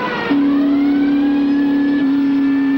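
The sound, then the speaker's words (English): Loud, steady engine drone from a car driving down a sandy hillside onto a beach, holding one even pitch throughout with only a slight shift near the end. “Jumping a gully, Ray drives down a sandy hillside onto the beach.”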